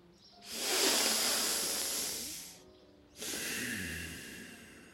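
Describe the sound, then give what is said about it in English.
Deep breathing through the nose: a long, loud, airy hiss lasting about two seconds, then a brief gap and a second long breath of similar strength, with no talking. “Yes, sometimes I need to remind myself to breathe, especially through the nose, so the air goes deep into my lungs.”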